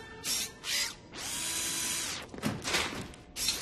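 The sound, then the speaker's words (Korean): A screwdriver whirs during a repair in a few short bursts, with one long steady whir in the middle and brief grinding and clicking after it. “오! 드라이버.”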